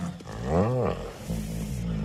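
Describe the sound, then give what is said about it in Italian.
A human voice imitates a male tiger's mating roar before copulation: one loud, growling roar that rises and then falls in pitch, followed by lower, rough, rumbling breaths. “appena riprodotto il verso della tigre maschio in amore prima della copula?”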